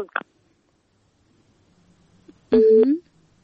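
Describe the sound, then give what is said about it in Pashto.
Telephone line tone after a call is cut off: a single electronic beep lasting about half a second, preceded by a brief click and faint low noise. “بلې اړیکه یې پرې شوله نه پوهېږم چې په تلیفون کرخه کې څه ستونزه ده خو اړیکې پرې کېږي”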